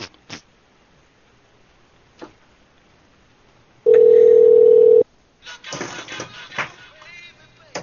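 A loud, steady telephone dial tone holds for about a second as a call is placed. A few faint clicks come before it, and a burst of shuffling, handling noise follows.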